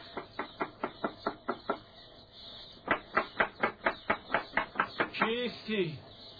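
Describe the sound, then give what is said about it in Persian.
Knocking on a wooden door comes in two quick, evenly spaced runs of sharp raps. The second run is longer, and a voice follows at the end. “خوب، در بزن ببینم این جوان با من چه کار دارد. در بزن.”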